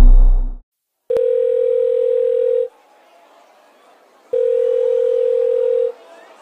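A telephone rings in two long, steady electronic tone bursts of even pitch, separated by a gap of near silence.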